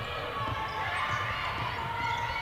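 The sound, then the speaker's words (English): A basketball is dribbled on the court during a women's game as a player dribbles away from a double team. Repeated low bounces sound under steady crowd noise. “Doubled up. Dribbles away from the double team.”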